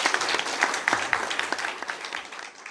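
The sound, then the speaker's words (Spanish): Audience applause greeting a town mayor: many hands clap in a dense, steady patter that gradually thins and fades toward the end. “saludemos con un aplauso a nuestro honorable alcalde Marcia Acuña.”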